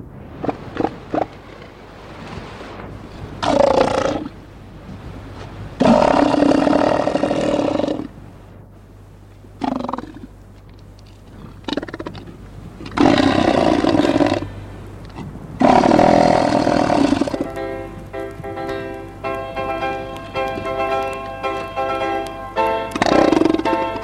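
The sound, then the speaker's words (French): Elephant seals roar on a beach on the Kerguelen Islands, a series of loud, deep, guttural bellows in bursts separated by short pauses, ending in a long, drawn-out harmonic groan. “Nous allons quitter cette plage, nous allons quitter ces éléphants de mer, ces énormes bêtes préhistoriques, qui rappellent un petit peu l'époque préhistorique”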